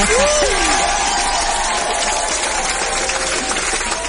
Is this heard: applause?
yes